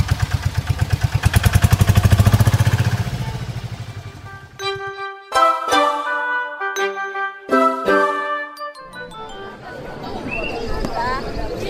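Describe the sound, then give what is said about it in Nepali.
A three-wheeler tempo engine starts, chugging with rapid, regular low thumps that swell and then fade over about four seconds. Ringing musical tones and jingling follow. “मैले tempo start गरेँ है”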